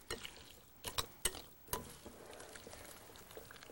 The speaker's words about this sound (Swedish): Och sen brukar jag blanda det här igen.